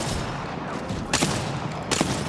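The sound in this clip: Gunfire from a shooter video game: two sharp, loud bursts of shots rise out of a steady wash of background noise, about a second apart.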